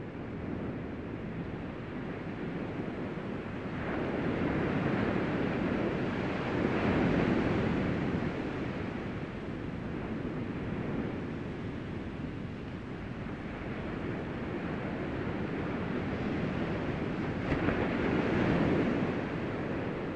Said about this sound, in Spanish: mientras escuchas el sonido del poder natural de las olas del mar